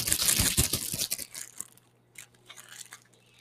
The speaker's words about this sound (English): I'll add the icing mix, if I can get it to open.